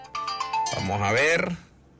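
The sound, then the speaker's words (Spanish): Telephone ringtone for an incoming call, a short, loud electronic melody of tonal notes that plays for about a second and then stops. “Tengo llamada.”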